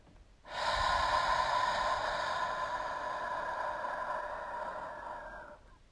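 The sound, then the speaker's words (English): A long, deep exhale through the mouth during a guided breathing exercise: a soft, steady rush of breath lasting about five seconds that fades gently at the end, fairly faint and without talk. “And as you exhale, you're going to let that all out through your mouth, through your breath.”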